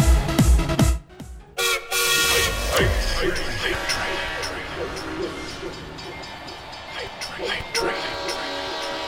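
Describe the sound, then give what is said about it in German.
A Twitch hype-train alert plays a train sound effect of rumbling rail noise and hooting horn blasts, with people talking loudly over it. “Liz hat einfach gerade einen Hype-Train ausgelöst. Sie mag Züge.”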